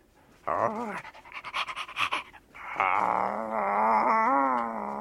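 A dog pants and whines, starting with a rising whimper, then quick rhythmic panting bursts, then a long sustained whining cry that wavers in pitch. The sounds are loud and heard alone.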